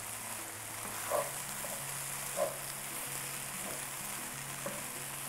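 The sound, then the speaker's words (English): Mushrooms and onions, salted, sizzle faintly and steadily in a pan as they cook, with a few brief soft stirring scrapes spread through the sizzle. “You like to season as you go so that the liquid from the mushrooms comes out, the juices from the onion will all come out with the salt. We'll stir that in.”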